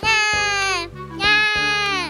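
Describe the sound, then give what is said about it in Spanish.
A newborn baby cries loudly in two long, tonal wails separated by a brief catch of breath. Each wail holds a strained, steady pitch. “Bueno, esto no tiene nada de raro, porque todos los bebés lloran al nacer.”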